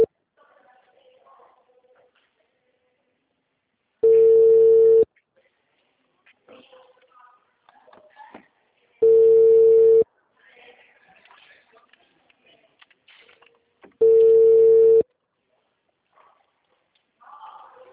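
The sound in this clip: Telephone ringback tone heard while waiting for an answer: three steady, buzzy tones of about one second each, spaced roughly five seconds apart, with faint low background noise in the gaps.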